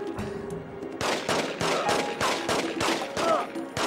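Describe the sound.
Rapid gunfire, a regular volley of many loud sharp shots at a quick, even pace that starts after a short quieter lead-in with faint talk.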